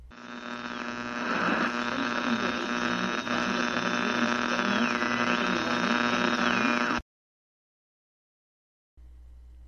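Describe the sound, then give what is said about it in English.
Radio static with a strong, steady electrical hum and a thin whistling tone that wavers in pitch. The noise cuts abruptly to silence after about seven seconds, then a fainter hum returns briefly. “hear that? It's the sound of static and the sound of silence.”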